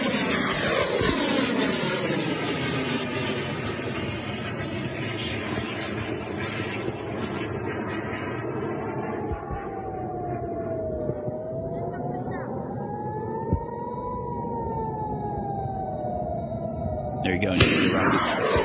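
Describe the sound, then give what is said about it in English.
Rocket fire over southern and central Israel with Iron Dome air-defense interceptions: a continuous roaring rumble, a siren wailing up and down in the second half, a couple of sharp bangs, and voices talking. “So here is clip number 12, nonstop rocket fire at southern and central Israel, multiple interceptions from the Iron Dome.”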